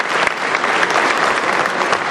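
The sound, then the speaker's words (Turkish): Loud, sustained applause fills a parliamentary general assembly, with dense overlapping claps and a few sharper slaps standing out from the wash of clapping. “Daha sonra alkışlar başladı.”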